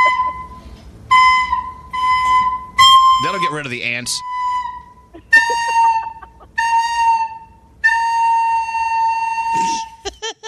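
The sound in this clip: A child plays Hot Cross Buns on a recorder, with a string of shrill, held notes in short phrases separated by brief gaps. One note wobbles, and a voice speaks briefly in the middle.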